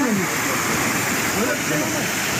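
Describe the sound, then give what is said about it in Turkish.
The flooding Yeşilırmak river rushes through Pazar in Tokat, a steady, dense roar of fast-moving water with no breaks. “Bu görüntülerde Tokat'tan, Pazar ilçesinden geçen Yeşilırmak taştı.”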